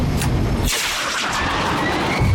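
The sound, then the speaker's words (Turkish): A bomb released from a combat aircraft and exploding on a target, heard as a loud, continuous rumbling blast that thins briefly in the low end before the heavy roar returns. “Vakit yok. Bombayı bırakıyorum.”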